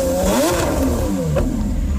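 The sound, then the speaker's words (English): A Lamborghini car engine revs loudly and continuously, its pitch swinging up and down through the revs with a rough mechanical edge. “No, it was a Lamborghini.”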